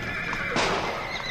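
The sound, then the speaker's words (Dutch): Horses in harness neigh in a single drawn-out whinny, with a brief burst of rougher breath near the middle. The sound is fairly loud and stands alone with no talk. “hou de paarden kalm”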